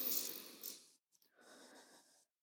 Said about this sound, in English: So we're going to deep breathe.